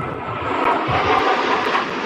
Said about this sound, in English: Jet.